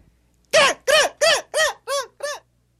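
A hen clucking in a children's story: six evenly spaced, short arching calls in a steady rhythm, growing slightly softer and thinner toward the end, alone with no talk.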